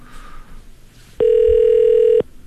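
A telephone ringback tone plays while a call goes out to a number with a regional area code. One loud, steady, mid-pitched tone lasts about a second, after a quieter stretch of faint background sound.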